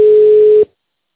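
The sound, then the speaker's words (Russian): A telephone line tone sounds as a call to a medical center is transferred to an operator: one steady, mid-pitched tone holding for just over half a second, then cutting off into silence. “Оставайте, пожалуйста, на линии, соединяю вас с оператором.”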